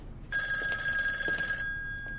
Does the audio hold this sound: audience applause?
no